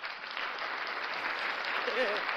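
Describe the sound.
Studio audience applause, played as a sound effect: dense, steady clapping that holds at an even level throughout without a clear break.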